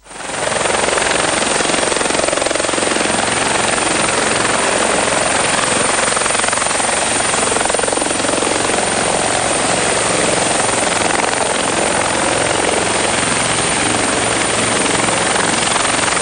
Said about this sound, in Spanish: Bueno, cada vez más helicóptero, ¿eh? El sonido del helicóptero empezó siendo una breve introducción y ahora le damos largo al helicóptero